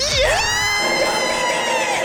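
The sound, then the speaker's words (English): A football crowd cheers wildly: high shrieks and whoops sweep upward at the start, then settle into loud, sustained cheering with ringing, pitched voices held over the roar. “Yeah! The crowd's gone wild. They've gone absolutely nuts over there.”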